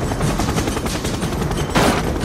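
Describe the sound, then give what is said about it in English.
Rapid gunfire crackles in dense, continuous bursts, loud and sharp throughout, with an especially forceful burst near the end. “Would you mind not shooting at the thermonuclear weapons?”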